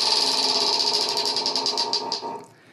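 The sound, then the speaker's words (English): A prize wheel spins with rapid clicking from its pointer. The ticks spread farther apart as it slows, then stop, leaving a quiet hum. “And to get some of that fairness in, um, again, we're going to spin the wheel and uh, see what comes up.”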